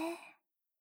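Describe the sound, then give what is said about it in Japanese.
A single calm breath out comes as a soft airy exhale that fades away in under half a second, followed by silence. “吐いて。バッチリ。私の耳にも穏やかな呼吸がはっきり聞こえてきてる。”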